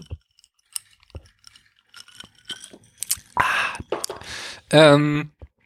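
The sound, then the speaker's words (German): A sip taken from a drink with the glass clinking: a few sharp, bright clinks come first, then breathy slurping noises and a short voiced sound near the end. “ich muss mal hier kurz einen Schluck aus meinem Trinken nehmen, den nicht so klimpern.”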